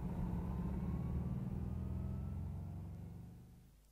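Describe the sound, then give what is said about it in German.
A car driving on the way to a warehouse gives a steady low engine rumble that holds evenly and then fades away over the last second or so, with no voices. “Während ich jetzt zum Lagerhaus fahre”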